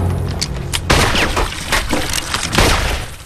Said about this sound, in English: Billy shoots two holes in the wagon's water barrel.